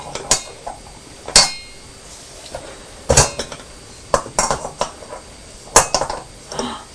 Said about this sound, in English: Shall we put some more weights on this side? There we are. Put some more stones in until the scale pan goes down again.